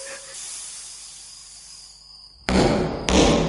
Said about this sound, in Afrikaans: Nee, Moenie! Hoekom skiet jy die vleermuise?